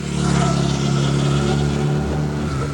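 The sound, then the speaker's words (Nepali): A Hero Xpulse 200 motorcycle with an 18.4 HP engine produces a loud, steady engine drone with a slight waver and no clear breaks. “Bike जसमा छ 18.4 HP engine, dual purpose tyre र rear monoshock प्रविधि, hero XPulse 200”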